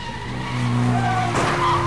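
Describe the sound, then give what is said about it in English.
A car's engine drones loud and steady during a stunt car chase, its tonal hum holding throughout, then a harsh tire skid and squeal cuts in partway and continues over the revving motor. “The stuntman falls from the roof of a building and through the open roof of a car, turns on the engine, and a car chase begins.”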